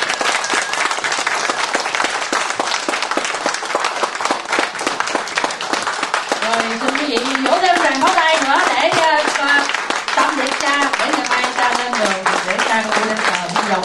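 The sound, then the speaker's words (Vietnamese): Long, loud audience applause thanking a priest at an evening gathering. Dense, steady clapping runs throughout, and a voice rises over it in the second half. “Xin quý vị một tràng pháo tay để cảm ơn cha thiệt dài.”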